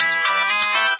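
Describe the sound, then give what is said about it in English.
Cell phone ringtone: a loud, bright electronic tone with dense, steady harmonics, lasting about a second and heard alone. “That's the sound of a ringtone on a cell phone, and don't be afraid to pick it up.”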